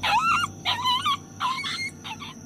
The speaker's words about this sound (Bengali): একটা কুকুর শুয়েছিল গলিটায়, ওর লেজে পা পড়তেই হয়তো চিৎকার করে উঠেছে।